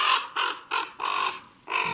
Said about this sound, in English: Here's a raven flying over right now.